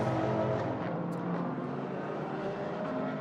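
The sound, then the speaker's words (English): Ferrari race car engine roar on track during a sports car championship practice session: a loud, dense, steady drone that holds its level with no clear swell or fade. “let's see if the Lamborghini has got back up to speed. Here comes the Ferrari, the 023.”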